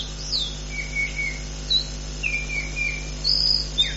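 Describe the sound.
A lark sings in faint, short chirps and thin whistled notes, spaced irregularly over a steady low hum, with no voices.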